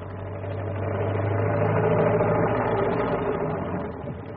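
A car engine runs steadily after a breakdown, a continuous low hum that swells slightly and then eases off, with no voices over it.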